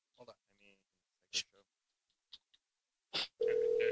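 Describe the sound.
Phone ringing tone from a call placed through a texting app on a laptop. Scattered short clicks and sounds come first, then a loud, steady tone starts near the end.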